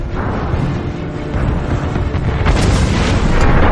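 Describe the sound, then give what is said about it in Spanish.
Buildings collapse amid fire, a dense, continuous roar of rumbling debris and deep booms that stays loud throughout and swells further toward the end. “A medida que va saltando, las pocas estructuras que quedan en pie se vienen abajo. Corre sin cesar para evitar ser pasto de las llamas.”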